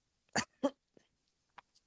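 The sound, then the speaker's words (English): A woman coughs twice in quick succession, two sharp, fairly loud bursts. A few faint, very short noises follow. “And she's like coughing.”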